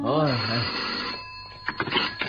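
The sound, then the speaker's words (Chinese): A telephone rings with an incoming call: a steady, high electronic ringing tone holds after a brief voice at the start, with a few short clicks near the end. “点解有电话入嚟噶？ 快啲听咯。”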